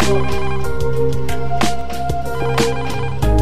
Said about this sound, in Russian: но раздался звонок.